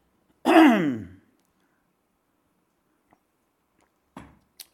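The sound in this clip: Throat clearing caused by phlegm: one brief, harsh voiced rasp lasting under a second, followed by silence and then a few faint small clicks and rustles.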